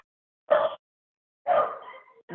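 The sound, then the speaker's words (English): Dogs barking: two clear barks separated by silence, the second trailing off more slowly, then the start of a third at the very end. “The dogs are going.”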